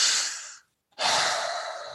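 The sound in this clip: A deep breath drawn in and then let out, heard as two breathy rushes of air split by a short silent pause, with the exhale longer and steady before easing off.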